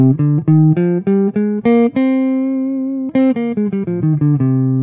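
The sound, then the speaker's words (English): A natural minor scale on a tonal instrument, played in quick, even notes that climb to a long held high note, then run back down to the low starting pitch. Many notes in all, played alone with no talk. “And then just to also hear a regular minor scale.”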